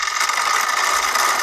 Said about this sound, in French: Alors, c'est un bruit de vélo, ouais. Et c'est quand on entend le dérailleur qui change de vitesse.